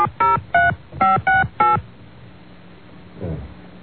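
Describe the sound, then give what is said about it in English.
Five telephone keypad tones are dialed for an outside call from a request line, short beeps in a quick, uneven rhythm, then a quiet line hiss. “I think you can dial out on the Pennsylvania request lines. Just dial 1 when you dial.”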